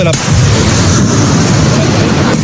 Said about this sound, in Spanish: Primero dieron la orden de morteros. Después, los tanques AMX de 105 milímetros.